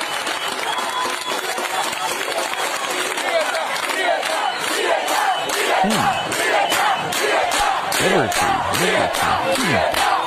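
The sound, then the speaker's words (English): A Cuban group chanting loudly in unison, a massed crowd of voices that stays dense and sustained, with a regular rhythmic pulse, like beating or clapping, emerging in the second half. “Here's another Cuban group chanting.”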